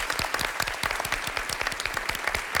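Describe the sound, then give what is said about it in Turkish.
Audience applause for a Nobel Chemistry Prize winner: a fairly faint, dense patter of many hands clapping at once, steady throughout. “Biz de kendisine sevgilerimizi iletiyoruz ve alkışlıyoruz.”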